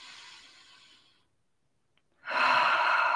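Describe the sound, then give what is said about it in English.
A deep breath taken during a guided relaxation: a faint airy breath fades out into a short silence, then a much louder, steady rush of breath follows and continues to the end. “we're going to go ahead and just go ahead and take a deep breath.”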